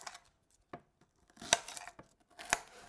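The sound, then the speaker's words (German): A knife cutting through an onion, with a few sharp, separate chopping strokes spaced out over faint background rustle. “Und ich glaube, ich schneide noch eine Zwiebel, die ich drauf mache.”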